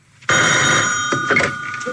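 A telephone rings with a sudden, bright, sustained bell tone, then breaks into a few shorter ringing bursts.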